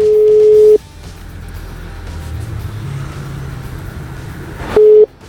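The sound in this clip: A telephone call being dialled: a steady ringback tone sounds once at the start and again near the end, each a long, even beep. A quiet, low line hiss fills the gap between them.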